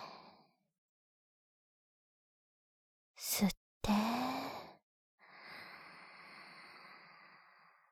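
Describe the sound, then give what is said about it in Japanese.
Slow, deep breaths drawn in and let out during a guided breathing exercise: three soft, airy whooshes, one brief at the start and two longer after a pause, with no talking. “じゃあ、もう一度、吸って、吐いて、”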